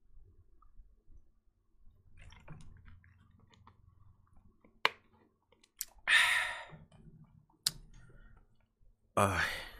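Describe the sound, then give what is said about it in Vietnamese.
Someone takes a sip of water, producing faint mouth clicks and small wet swallowing sounds, followed by a couple of short breathy exhales against near silence. “Đợi mình chút, mình uống hớp nước cái.”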